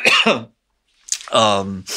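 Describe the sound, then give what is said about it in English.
A person coughs during a conversation, giving two short voiced, throaty bursts separated by a brief silence. “Sorry, I have to cough.”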